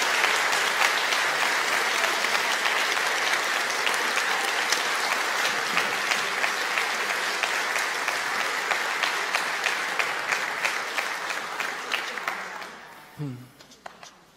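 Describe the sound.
A church audience applauds to welcome four new leadership council members, with sustained, even clapping that gradually thins and fades toward the end as a voice briefly emerges.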